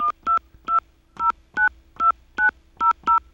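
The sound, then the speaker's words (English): Telephone keypad dialing tones enter a destination number on a calling-card phone service: nine loud, clean beeps in a quick, slightly uneven rhythm, each short and separated by brief silences. “Please enter your destination number followed by the pound sign.”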